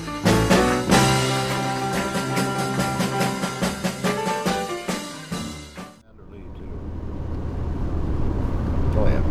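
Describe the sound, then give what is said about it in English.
A car drives along a lonely backwoods road in Georgia. A steady, broad road and engine rumble follows a stretch of rhythmic music. “This is Commander Lee, driving on a lonely road in the backwoods of Georgia.”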